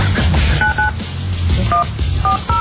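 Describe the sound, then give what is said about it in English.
Telephone keypad dialing tones: a few short, clear beeps at irregular intervals over a dense, loud bed of background noise. “Let's call them, shall we? Oh, you got dial 9.”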